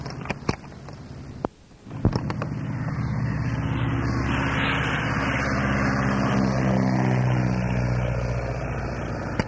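Engines of an Alaska Airlines jet spooling up for takeoff, a few clicks at the start and then a deep roar that builds quickly and holds loud and steady.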